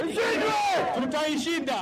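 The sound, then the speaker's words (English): Chanting crowd at a Nairobi Somali community solidarity rally against terrorism, many voices shouting together in loud, rhythmic unison phrases that rise and fall continuously without a break. “But on Friday, Nairobi's Somali community rallied in a show of solidarity against terrorism. Crowd chanted, "We will defeat them,"”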